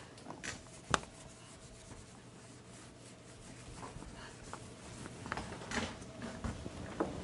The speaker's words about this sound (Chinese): 来，这个地方我擦掉